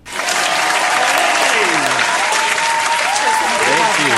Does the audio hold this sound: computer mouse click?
no